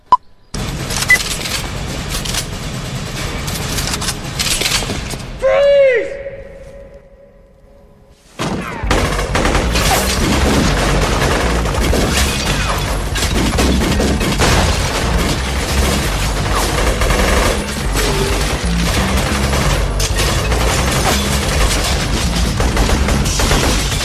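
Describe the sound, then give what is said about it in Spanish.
Heavy gunfire from a film action scene: many loud shots and bursts run almost without a break, interrupted by one short quieter gap early on that holds a ringing tone. “Tenemos que acabar hablando de tiros y de tiros, porque hay una escena que no es muy radiofónica, pero lo vamos a poner.”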